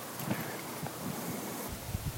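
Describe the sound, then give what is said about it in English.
Wind blows outdoors straight into the microphone, producing a soft continuous rushing noise with scattered low buffeting thumps, fairly faint and without any voices. “Well, it's getting kind of windy and stuff, so shouldn't record very much more”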